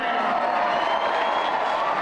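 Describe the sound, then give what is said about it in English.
An excited crowd fills the Equestrian Center in Los Angeles at a Black rodeo, a steady broad roar of murmuring and cheering with a voice speaking over it. “When you arrive at the Equestrian Center, you can instantly feel the crowd's excitement.”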